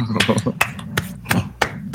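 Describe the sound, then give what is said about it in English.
Hand clapping, six sharp, evenly spaced claps in a steady rhythm, with a voice talking near the start. “Hey, let's clap for Mac.”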